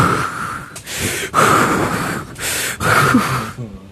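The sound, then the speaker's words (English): Heavy breathing from an exhausted person: loud, rough breaths in a steady series of long, noisy bursts with short pauses between them, with no clear talk over them. “I hear you just heavily breathing over there”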